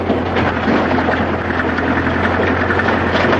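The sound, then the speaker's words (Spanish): A truck engine rumbles as the vehicle pulls away and climbs a gentle slope, black smoke coming from the exhaust; the deep, loud drone holds steady throughout. “Un humo negro sale del tubo de escape mientras el vehículo comienza a ascender una suave loma.”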